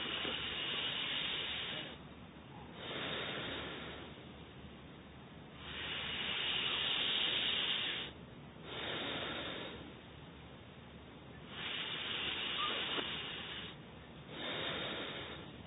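Slow breathing through the nose during a breathing exercise done with the right hand: many long, steady breaths, each a soft hissing rush, separated by short pauses.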